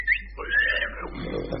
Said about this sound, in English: There he is. Ladies and gentlemen, meet Aubrey. Aubrey the pig. Down, boy. Down, boy.